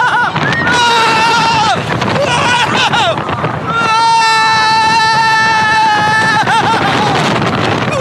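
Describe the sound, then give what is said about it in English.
A roller coaster ride, on its second run, with wind rushing and buffeting the microphone while riders let out long, loud, high-pitched screams and wails throughout. “Here's the second ride of the... El Toro! Same thing as the first time.”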